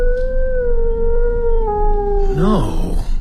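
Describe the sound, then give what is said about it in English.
A dog howls on a moor in one long, sustained wailing tone that sinks slowly in pitch, then wavers and breaks off near the end, over a constant low rumble. “Did you hear something? Sounded like a howl. One of those damned sheepdogs lost on the moor, probably.”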